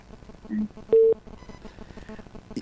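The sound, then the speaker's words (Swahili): Telephone tones signal a caller ringing into a radio studio: two short beeps, the second louder and higher, among talk. “Ngoja tusikize simu.”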